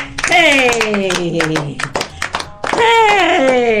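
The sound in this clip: Children clapping hands on a children's programme, with sharp claps patterned across the middle while a voice speaks or sings over them at the start and end.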